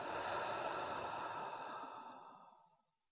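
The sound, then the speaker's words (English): A deep, slow breath out through the mouth, soft and breathy, trailing off gradually over about three seconds, heard alone. “Let's take a deep breath in through the nose and out through the mouth.”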